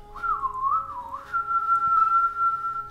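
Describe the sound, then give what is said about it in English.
Whistling that imitates a flute: one sustained, breathy melodic line that wavers up and down early on, then settles into a long steady note, clear and alone with no talk. “It's flute time. Again, 16. We have to remind ourselves. Yeah. It is so flute time. Flute it up.”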